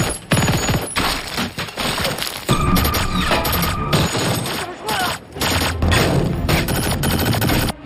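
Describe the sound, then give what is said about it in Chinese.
Gunfire from foreign light weapons in a war film set overseas, with dense rapid bursts and heavy shots firing almost without pause, loud throughout and dipping only briefly between volleys. “由于故事发生地点在海外，红海行动里也有不少国外轻武器的登场。”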